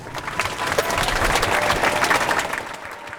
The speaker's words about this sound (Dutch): Mag ik nog eenmaal een applaus voor alle sprekers?